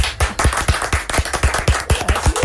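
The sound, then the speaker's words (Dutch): Rhythmic group clapping in a steady, quick beat, with many sharp claps repeating evenly from start to finish and no voices on top. “Als elke keer een applaus zou komen, erachteraan. Dat doen we nog een keer.”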